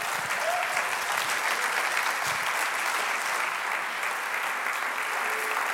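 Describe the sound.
An audience applauds to welcome a speaker onto the stage at a talk on raising emotionally healthy children, with dense, steady clapping that holds at an even, moderately loud level throughout, no voices above it.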